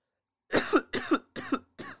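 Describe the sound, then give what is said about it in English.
A person coughs four times in quick succession, each cough a rough double burst, with the last one a little softer. “he did not cough, I coughed.”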